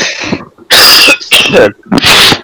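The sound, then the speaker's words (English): Harsh, loud coughing from someone who is sick: a few forceful bursts in quick succession with brief gaps between them, and no talk. “No, it's a goddamn cough.”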